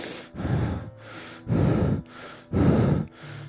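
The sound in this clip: A voice imitates the breathing of a predator stalking its prey: three loud, forceful, rasping breaths alternate with softer, quieter ones in a steady rhythm, with no talk.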